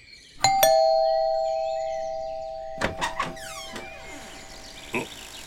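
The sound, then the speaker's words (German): A two-tone doorbell chime rings at a dragon's lair in a comic fantasy radio play. Its two bright strikes leave a long, fading tone, followed later by a few short clunks. “Hey, benutz doch die Klingel.”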